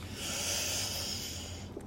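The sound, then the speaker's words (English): One slow, deep breath makes a soft, airy rush that holds steady and quiet, then fades away at the end. “Those deep breathings really, I feel so relaxed now.”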